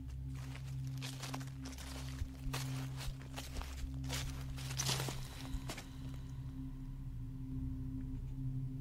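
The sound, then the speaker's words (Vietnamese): Rustling footsteps of many people walking around a vast graveyard: faint, irregular crunching steps in scattered bursts over a steady low hum, thinning out and growing quieter after about six seconds. “Chúng nó thấy những tiếng bước chân dẫm sột soạt, như đang có rất nhiều người đi quanh đây vậy.”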